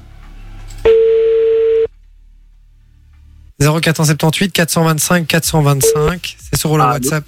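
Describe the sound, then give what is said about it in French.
A telephone call being placed: one steady, mid-pitched ringing tone lasting about a second, then a short near-silent pause before people begin talking loudly. “On appelle.”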